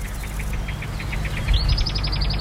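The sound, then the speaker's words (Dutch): Birdsong of a marsh warbler by a gently flowing stream edged with reeds and willow scrub: rhythmic series of short, high chirping notes, switching midway to a faster, higher run, over a constant low rumble. “voor je opname van onder andere de bosrietzanger”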